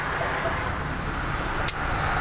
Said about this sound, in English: The cars are driving by us here on Lake Street and Keystone and River Forest, right outside of Keystone Park.